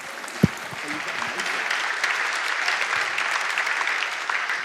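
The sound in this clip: Warm applause from an audience at a Christian gathering welcomes a speaker to the stage. Dense clapping swells slightly after a single sharp thump near the start, then continues evenly.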